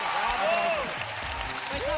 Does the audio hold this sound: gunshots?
no